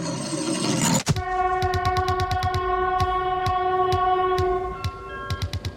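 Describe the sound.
A TGV high-speed train at a railway station: a brief burst of broad noise gives way to a steady, sustained tonal hum laced with quick, regular clicking.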